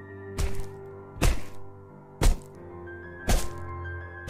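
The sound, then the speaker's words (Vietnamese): Four sharp, cracking thuds of a stone striking a face land at even intervals, each loud and short, over a faint sustained background tone. “Thanh Lam chỉ kịp kêu lên một tiếng, bị cô ta dùng đá đập liên tiếp vào mặt.”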